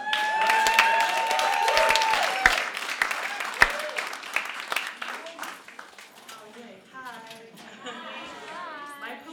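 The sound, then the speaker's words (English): Audience applause at a live music show, dense clapping with some chatter that gradually thins out, and a voice talking as the clapping fades. “So give it up for Denise.”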